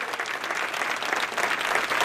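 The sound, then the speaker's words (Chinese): Prolonged applause fills a hall as the referee for the World Cup final is announced, a dense, unbroken patter of many clapping hands at a steady moderate level. “当国际足联裁判委员会主席科利娜念出斯拉夫科温契奇这个名字时，现场响起经久不息的掌声。”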